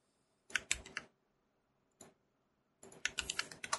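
Faint typing on a computer keyboard: a short cluster of quick keystrokes, a single tap, then a faster run of clicks at the end.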